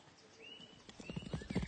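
Hoofbeats of a horse being ridden, a rhythmic clip-clop that begins softly and grows louder and denser toward the end, with no talking.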